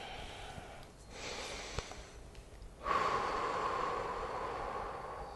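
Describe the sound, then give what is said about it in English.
A deep breath taken during a guided relaxation: faint, slow airy breathing, with a softer draw followed by a longer, louder rush of breath. “Nice deep breath here.”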